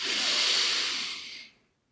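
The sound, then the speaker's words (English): A deep, slow breath drawn in through the nose makes a soft, steady airy hiss for about a second and a half, then fades quickly into silence. “Close your eyes. Take a deep, slow breath in through your nose.”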